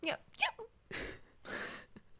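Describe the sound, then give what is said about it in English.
Hiccups from a person come as a few short, sharp, voiced gasps in quick, uneven succession. They are fairly quiet, with brief pauses between them. “Everyone, look at my cute little hiccup.”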